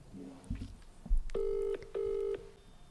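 A telephone rings during a prank phone call: two short bursts of a steady, buzzy ringing tone separated by a brief gap, after a few soft clicks and knocks.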